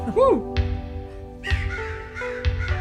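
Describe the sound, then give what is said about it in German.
Crow cawing: three harsh, raspy caws spaced about a second apart, loud and clear over a steady low background hum. “Nein, das ist der Crow. Das ist die Krähe.”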